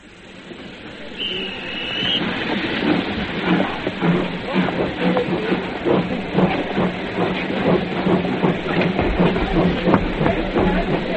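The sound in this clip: A train rolls past with a steady, rhythmic clatter of wheels over a low rumble, swelling in the first seconds and then staying loud to the end.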